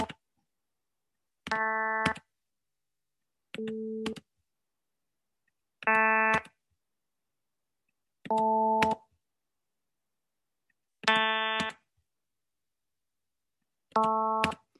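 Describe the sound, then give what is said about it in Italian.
The same musical note is played six times as separate tones, each lasting about half a second with silences between. The pitch stays the same while the tone colour changes from one note to the next, some sounding more nasal than others. “Sentite, sono delle combinazioni diverse. Noi sentiamo la stessa nota con dei timbri differenti, più o meno nasali, diciamo, se dobbiamo dargli una caratterizzazione.”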